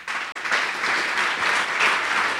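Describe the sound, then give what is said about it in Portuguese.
A church audience applauds in dense, continuous clapping that holds at a fairly even, loud level after a brief break near the start. “Vamos aplaudir mais ao nome de Jesus.”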